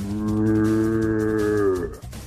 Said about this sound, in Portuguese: Eu também sei tocar berrante, cê olha só.